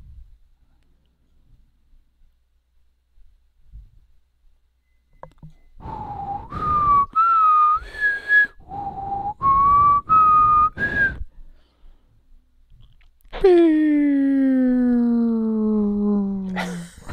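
Electronic keyboard playing a short melody of sustained, whistle-like tones in two similar rising phrases, then a long tone that slides slowly downward in pitch; no voices.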